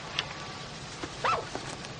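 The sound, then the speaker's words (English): A dog in a 1983 film scene gives a few faint, short barks and yips against a quiet background. “Jennifer Beals as Alex, Michael Nuri as Nick, and Jumbo Red as Grunt the Dog from 1983's Flashdance”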